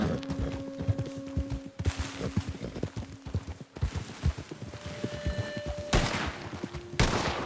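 Gunfire erupts in a multiplayer game as players shoot at one another, with a few loud, sharp bursts standing out over sustained tones and a steady clattering background.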